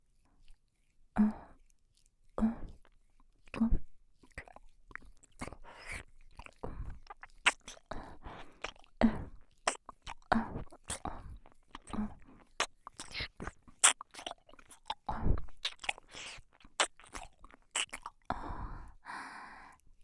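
Gentle ASMR nibbling near the ear, a soft biting of the ear area, made of many small wet mouth clicks and quiet chewing sounds, close and intimate, with faint breaths between them.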